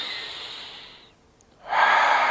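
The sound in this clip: Deep breathing during a relaxed belly-breathing exercise: one long airy breath slowly fading away, a short near-silent pause, then a second, louder and fuller breath, with no talking.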